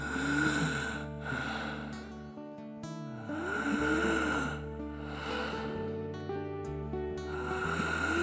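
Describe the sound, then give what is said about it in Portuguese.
Deep breathing from someone worn out after a long walk: a few slow, full breaths in and out swell and fade over a sustained musical backdrop, with no talking. “Estás tão cansado desta caminhada que deixas cair os braços e respiras fundo. Precisas de inspirar e expirar 3 vezes profundamente.”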